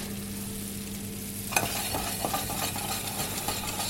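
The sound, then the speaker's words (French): Sizzling and stirring as vacuum-cooked chestnuts go into a pan of frying mushrooms. A steady low hum comes first, then the sizzle starts suddenly with scraping, clattering stirs. “On va pouvoir ajouter les châtaignes avec les champignons.”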